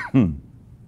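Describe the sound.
Throat clearing from something stuck in the throat: one short, gruff vocal burst that falls away quickly, followed by near silence.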